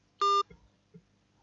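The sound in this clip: A single short electronic beep sounds on a phone line after a call drops, followed by a couple of faint clicks and near silence.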